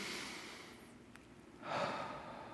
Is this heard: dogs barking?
no